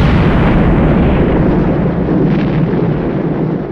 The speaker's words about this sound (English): the red-hot cannonball strikes the fort's storehouse of gunpowder. It explodes with a boom that shakes the earth.